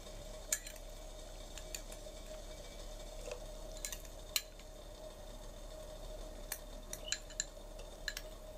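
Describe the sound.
Shallots and garlic frying in a pot give a steady, faint sizzling hiss, with scattered sharp metallic clinks of a utensil against the pot throughout.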